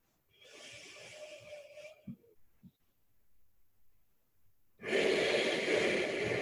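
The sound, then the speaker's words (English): Deep breaths taken during a guided meditation: two long, airy breaths, the second louder and fuller, separated by a quiet pause with faint soft sounds. “Take one more deep breath here, smiling.”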